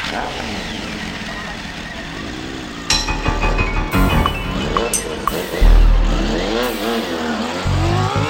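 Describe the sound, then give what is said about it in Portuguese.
A motorbike engine revs in loud bursts as the bike rides off, its pitch sweeping up and down through repeated throttle changes over a steady low rumble. “Sobe na moto aí. Então, vamos aí.”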